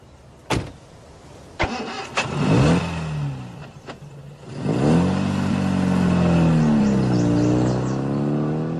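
A car engine starts and the car drives away: a few sharp clicks come first, then the engine turns over and settles into a loud, steady mid-pitched drone that rises and dips in pitch as it accelerates.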